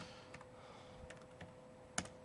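Typing a command on a computer keyboard: a few faint, scattered key clicks at an irregular pace, with a slightly sharper keystroke near the end.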